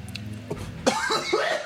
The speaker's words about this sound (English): it made me cough, too, like a little bitch